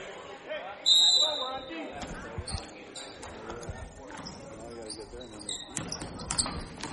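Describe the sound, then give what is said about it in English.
A basketball is dribbled during a high school boys' game, Maple River at Bethlehem Academy, with a few quick bounces under steady talk. “He dribbles right to the basket and dumps it off for another layup.”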